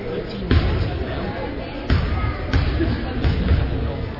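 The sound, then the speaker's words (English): A basketball bounces on a gym floor before a free throw in a high school girls' game, giving a few dull thumps over steady crowd murmur and a commentator's voice. “Dribbles once, eyes the basket, and missed that one.”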